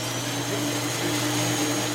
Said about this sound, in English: So this is the sound of a shoe scrubbing machine at the Laser Interferometer Gravitational Wave Observatory.